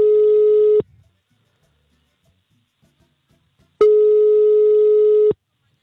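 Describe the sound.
A telephone line tone from an unanswered call: two long, steady, mid-pitched tones with a gap of about three seconds of silence between them.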